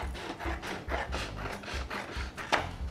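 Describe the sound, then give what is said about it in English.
A printed paper template is trimmed at the top, giving a rhythmic series of short, dry rasping cuts at a steady pace, with one sharper, louder snip near the end. “the next thing I'm going to do is I'm going to trim at the top. We don't need that, that's just totally excess.”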